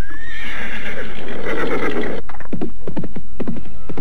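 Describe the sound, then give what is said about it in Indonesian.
A horse neighs loudly as its rider pulls it to a stop, giving a long, shrill whinny followed by a series of sharp hoof clops. “Oh, lihatlah itu. Mereka menghentikan kudanya.”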